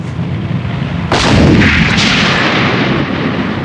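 A single tank gun shot fired at a lead vehicle: one sharp, heavy blast that swells into a rolling rumble over a constant dense background roar, with no voices.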